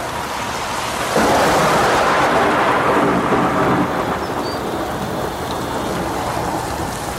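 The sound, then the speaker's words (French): A thunderstorm passing, with heavy rain pouring steadily and a deep rumble of thunder that swells and then fades back into the constant hiss of rain. “On regarde passer l'orage.”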